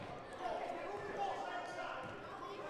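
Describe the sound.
A basketball is dribbled on the court during a boys' high school game between Exeter and Daniel Boone, its repeated bounces running under steady, loud crowd noise in the gym.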